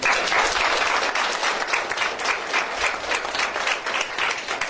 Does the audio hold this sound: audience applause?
yes

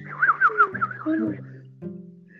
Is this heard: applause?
no

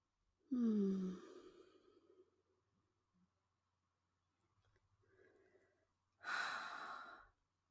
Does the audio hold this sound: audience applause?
no

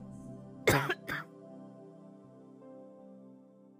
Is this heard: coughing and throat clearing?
yes

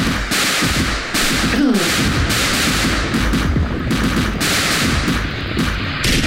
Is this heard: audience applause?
no

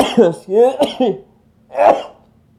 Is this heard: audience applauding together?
no

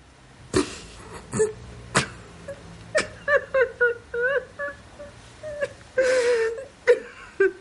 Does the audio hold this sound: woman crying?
yes

